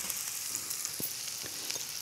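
Thinly sliced red onions fry in a pan with a faint, steady sizzling hiss, broken by a few soft pops and clicks.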